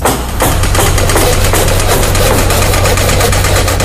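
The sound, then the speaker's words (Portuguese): Heavy construction machinery at work building 25 school units in Montes Claros: a loud, steady engine drone with a deep low hum and many faint knocking pulses running throughout, with no voices. “Sabe que som é esse? É Montes Claros trabalhando na construção de 25 unidades escolares, entre CMEIs e escolas.”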